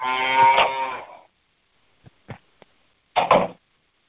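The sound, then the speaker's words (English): A cow moos twice: a long, full low moo, a few short soft clicks, then a second, shorter moo. “Oh, a cow just got out. Not that a I care. Cow. A cow just got out.”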